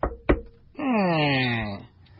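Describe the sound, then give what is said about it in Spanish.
Two sharp knocks on a door in a small village in Chiapas, quick and close together, followed by a drawn-out voice that slides gradually lower in pitch. “En un pueblecito de Chiapas, tocan a la puerta.”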